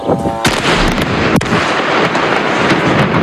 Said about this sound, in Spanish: Este sonido que escuchas es el bombardeo sobre Beirut de la aviación israelí el pasado domingo